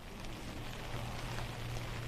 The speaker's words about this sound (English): it is raining here in Somerville, but that is not keeping voters from heading to the polls today